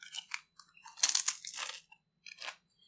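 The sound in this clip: Crunching while eating: a few quiet, crisp bites and chews in short bursts separated by brief pauses, with no talking.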